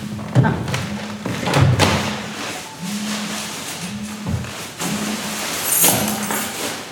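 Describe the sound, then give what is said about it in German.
A Monday-morning alarm going off in many short, low buzzing pulses in an uneven pattern, mixed with a few dull thumps, fairly loud throughout. “Das ist mein Montagswecker. Ich fahre gleich ins Dock. Das ist immer noch eingestellt. Ja. Ich habe den irgendwie noch nicht ausgestellt.”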